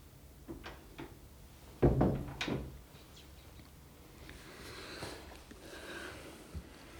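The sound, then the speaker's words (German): A door is pulled shut with a sharp thud, quickly followed by a second, softer knock, over a faint background hiss; a few light ticks come before it and quiet shuffling follows. “mach bitte mal die Tür hinter dir zu.”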